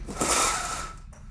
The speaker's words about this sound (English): I'm gonna open this window and keep talking.